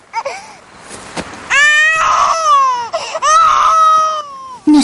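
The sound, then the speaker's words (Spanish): A baby cries loudly while left on the grass outdoors beside a cooking fire: a few drawn-out, strongly tonal wails separated by brief catches of breath, with a short burst at the end. “Lore toma a Peter en brazos y lo aparta dejándolo llorar sobre la hierba.”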